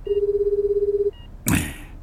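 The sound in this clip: A telephone rings unanswered on the caller's end as a single warbling, buzzing tone lasting about a second. A brief blip of the same tone follows, then a short, noisy burst.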